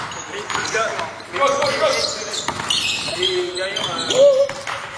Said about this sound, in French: Ah voilà, c'est pas le basket, c'est le bruit du couinement des chaussures. Pourquoi les chaussures de basket font-elles ce bruit horrible?